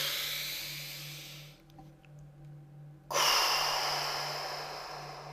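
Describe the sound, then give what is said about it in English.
A person takes a deep breath during a guided tapping relaxation exercise. Two soft, breathy phases are separated by a short quiet pause. The second is louder and hissier, over a faint steady hum, and no one speaks. “Take a breath.”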